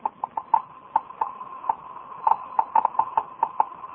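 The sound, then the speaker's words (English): Geiger counter clicking as it detects radioactivity: many sharp, dry ticks at an irregular, random rhythm, fairly faint and alone. “That sound is being made by a Geiger counter, a device for detecting radioactivity.”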